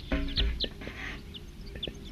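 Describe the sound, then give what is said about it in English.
Wild birds call with a few short, high chirps scattered over a steady low rumbling noise. “They're recording wild birds.”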